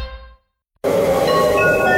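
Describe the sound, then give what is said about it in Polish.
A train arriving: a brief tonal sound fades into a moment of silence, then a loud, steady rail rumble cuts in abruptly. Faint high squealing tones run through the rumble until the end. “Uwaga, uwaga! Pociąg z promocji właśnie wjechał do Biteku.”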